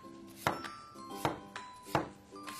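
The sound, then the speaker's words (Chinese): Knife slicing an apple into pieces on a cutting surface, several crisp, faint chopping strikes at an irregular pace, with quiet pauses between cuts. “把它切开，把里边的籽儿去掉，把苹果切成片儿”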